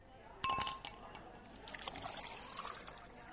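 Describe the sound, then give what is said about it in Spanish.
A drink is poured into a wine glass. A single sharp glassy clink comes first, then a faint, steady liquid trickle carries on to the end, with small splashy peaks along the way. “Te voy a llenar la copa. Prepárate para la copa llena.”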